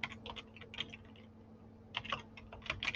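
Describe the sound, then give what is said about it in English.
Quiet typing on a computer keyboard: rapid clusters of light keystrokes, a pause of about a second, then another burst of clicking. “You can just type that in to Google”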